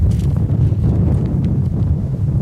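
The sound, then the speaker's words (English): Strong wind buffets the microphone in a loud, continuous low rumble that surges and churns throughout without any break. “This wind is something else, huh?”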